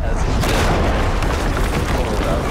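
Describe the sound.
Explosions in a Battlefield 1 video game trailer form a loud, unbroken wall of booming rumble and blasts, dense and heavy from start to finish.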